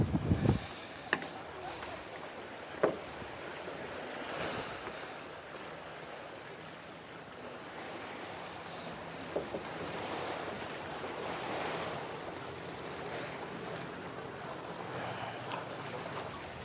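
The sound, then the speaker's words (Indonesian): Sea waves wash continuously at Banda Aceh, a broad steady surf roar with wind buffeting the microphone and a few sharp knocks near the start. “Ini laut di Banda Aceh, menjadi pusat tsunami awalnya.”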